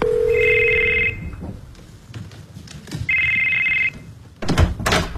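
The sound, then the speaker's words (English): A telephone rings in two bursts of steady, high electronic tone separated by a short gap, with a soft thump near the end and no voices. “Your phone rang. What? You missed a call.”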